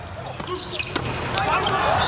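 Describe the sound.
A volleyball float serve by Kozamernik is struck, a single sharp hit standing out briefly over steady crowd noise and people talking.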